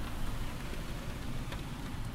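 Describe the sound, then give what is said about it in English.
Rain clatters against the small attic windows of a rectory on a windy day, a steady, dense patter that stays faint and even throughout with no other sounds. “what you hear is rain that is clattering against the small windows of the attic of the rectory where I live.”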